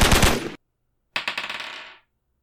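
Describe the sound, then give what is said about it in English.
Submachine gun fire sound effect during a tabletop role-playing game: a loud, dense burst of shots, a short silence, then a second rapid string of shots that tapers off. “reload his SMG. Click, click, click. And then he is going to fire at Spigs.”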